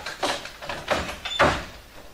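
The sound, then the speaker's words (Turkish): Kitchen door being opened: a few soft clacks and rattling rustles in quick succession, quiet and brief. “En iyisi mutfak kapısını aç.”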